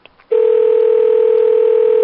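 A telephone line's dial tone comes in after a faint click and holds at a single steady pitch to the end, loud and alone, just before a call is dialed.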